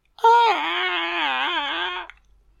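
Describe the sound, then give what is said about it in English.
Gollum from The Two Towers whines in pain, a voice performance of a single drawn-out, wavering moan that holds for about two seconds and then breaks off into silence. “So Gollum's going to become their prisoner for the time being. Oh, he's whining in fucking pain.”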